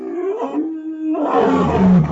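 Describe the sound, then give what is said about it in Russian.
A low, deep roar rolls across a snowy plain, a sustained growling rumble that dips briefly, then swells again, louder and rougher toward the end. “Низкий рев, прокатившийся вдруг над заснеженной равниной, заставил его вскочить на ноги.”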